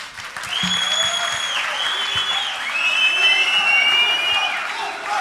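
Audience applauding at a freestyle rhyming performance: dense, steady clapping and crowd noise that holds throughout and swells slightly toward the end.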